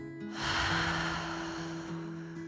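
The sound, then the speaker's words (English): A deep breath in and a long exhale, a soft airy rush that rises and then slowly fades, heard over quiet background music with sustained low tones. “let's take a nice deep breath in together. And exhale.”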